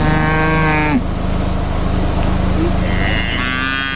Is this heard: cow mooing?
yes

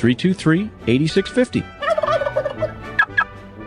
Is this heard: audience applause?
no

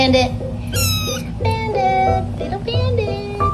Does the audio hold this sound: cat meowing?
yes

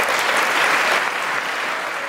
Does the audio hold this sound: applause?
yes

